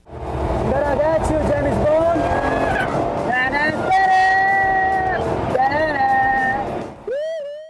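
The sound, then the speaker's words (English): A Jaguar supercar's engine roars loudly as it is driven hard on a race track, its pitch climbing and dropping repeatedly through gear changes, ending with a sharp rising rev. “still want to see the car in action, Jaguar released a video of Formula One driver Felipe Massa getting some time behind the wheel of the supercar, and it sure looked like he had some great fun.”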